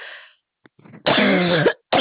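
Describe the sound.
Cough brought on by a tickle in the throat: one long, harsh, rasping burst, preceded by a few faint throat sounds and cut off by another short burst at the end.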